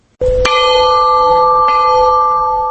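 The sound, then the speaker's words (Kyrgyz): A peace bell rings at a memorial in Osh for the victims of the 2010 clashes. A single strong strike sets off a long, sustained metallic ring, with a fainter second knock as the tone hangs on. “Курман болгондорду эскерип Ош шаарында тынчтык коңгуроосу орнотулду.”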